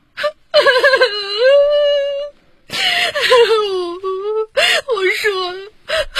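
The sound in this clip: A woman cries in long, wavering, high-pitched wails that rise and fall in tone. Several sustained bursts are broken by brief pauses and end in shorter, choppier sobs.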